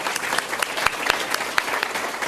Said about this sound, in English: Round of applause for